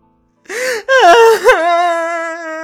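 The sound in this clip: Someone bursts into loud, anguished wailing and crying, face covered, and the cry fills the room. A ragged sobbing burst leads into a long, sustained wail that wavers in pitch.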